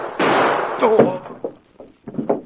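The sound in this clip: A single loud gunshot from a staged shooting in a tense confrontation: a harsh, broad blast that holds for about half a second, then a brief cry from a voice and a few softer, scattered thumps that fade out.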